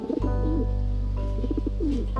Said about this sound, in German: Bei guter Pflege können Brieftauben stolze 20 Jahre alt werden. Die sind 3 Wochen alt, habe ich jetzt abgesetzt.